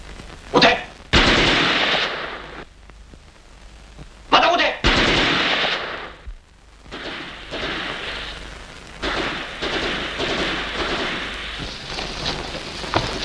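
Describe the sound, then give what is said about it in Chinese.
Gunfire in a wartime scene, loud sharp bursts breaking out a few times, then a longer stretch of dense crackling shots over a rough, rain-like background noise. “赶快出来，再不出来我就开枪了。”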